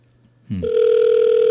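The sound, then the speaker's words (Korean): A telephone tone on an outgoing landline call: a short burst of clicking gives way to a steady, loud electronic tone that holds without a break. “일반 전화로 전화를 걸고 있어요”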